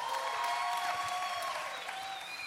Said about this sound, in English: So I want you guys to welcome to the stage our student panel. Give it up for our student panel.